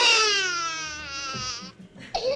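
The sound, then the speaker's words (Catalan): A baby cries loudly in a long, high wailing cry that wavers in pitch, then breaks into shorter, fainter sobbing whimpers before one final sharp cry. “Ja plora. Doncs mira. Ja plora.”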